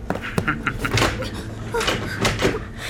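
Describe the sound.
A door is shut and locked: a few sharp clicks and knocks spaced over a few seconds, with some muffled thudding between them.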